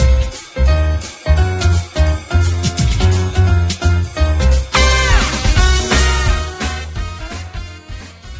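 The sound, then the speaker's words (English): Ultimate final boss theme from the video game Spark the Electric Jester: loud, driving electronic music with punchy rhythmic beats and dense, bright synth layers that keep up a fast, energetic pulse throughout. “What you just heard there was from Spark, the Electric Jester. That was the ultimate final boss theme”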